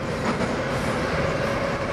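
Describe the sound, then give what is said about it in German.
A metro train runs in Uzbekistan, giving a dense, steady rumble with rattling carriage noise and a faint high hiss. The loudness stays level throughout, with no voices. “Die Metro, pünktlich im 8-Minuten-Takt, die uns zu Anvere und Viktor bringen soll, befördert heute nur wenige Passagiere.”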